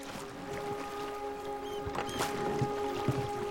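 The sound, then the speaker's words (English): A small rowing boat is rowed across a loch, with faint creaks and soft splashes of the oars over a quiet steady hum. “rows a small boat out across the loch.”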